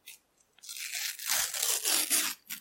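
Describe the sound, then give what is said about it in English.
Crinkly tearing and crunching of a sticker packet being opened: a couple of small rustles, then a sustained crackling rip that grows louder, and a last short crinkle after a brief pause. “That was good. It started slowly, but rose to a crescendo. We're really struggling to get them out of the sticker packet there.”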